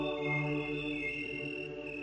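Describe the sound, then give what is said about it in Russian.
A chorus of cicadas chirrs at night, a steady, shrill, continuous droning buzz that holds evenly throughout with no other sounds or voices. “над всей этой игрой разнообразных сияний воспаряет серебряный звон цикадного хора”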